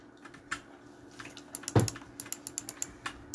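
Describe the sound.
Computer keyboard typing as a chat message is written: many quick, irregular key clicks in bursts, with one heavier thump midway and a livelier run of taps toward the end.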